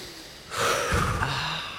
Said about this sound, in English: Let's all start with a deep breath.